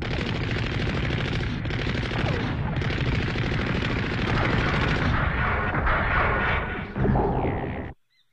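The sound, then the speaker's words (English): Enemy gunfire in an animated war series: dense, continuous bursts of rapid shots and booming blasts roar loudly without a break for about eight seconds, then cut off abruptly into silence. “We have reports of enemy fire. Something must be going on.”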